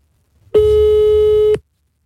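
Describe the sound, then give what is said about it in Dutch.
A single telephone ringing tone sounds as a loud, steady, mid-pitched beep lasting about one second, with silence before and after. “Dan moet het geluid uit, want ik bel hem dan nu met mijn telefoon.”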